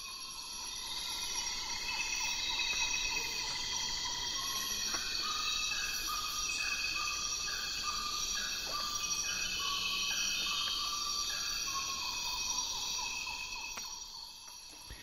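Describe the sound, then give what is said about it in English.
Dawn chorus of birds and insects: a steady, dense insect drone runs throughout while birds repeat short chirping calls and brief phrases on top, fairly even in loudness from start to finish. “So I got interested in doing a show on the sound of the dawn chorus when I came across the profile of Gordon Hempton in the book Environmental Sound Artists by Frederick Bianchi and Vijay Manzo.”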